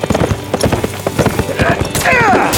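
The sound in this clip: Horses gallop at night with rapid, heavy hoofbeats in an irregular, driving rhythm, and a high whinny rises near the end.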